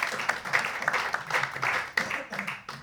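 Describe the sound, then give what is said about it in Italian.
Audience clapping at a stand-up comedy night in an ARCI club. Individual claps are sharp and irregular, and the applause is moderately loud, thinning out into sparser claps with gaps toward the end. “un applauso”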